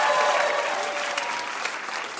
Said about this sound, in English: That was a really hard game. You guys are amazing. Big round of applause for our contestants.